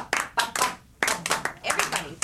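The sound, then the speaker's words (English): Hands clap during a music therapy session, with many sharp claps in an uneven rhythm, some in quick pairs, separated by a brief pause near the middle. “Now we can clap.”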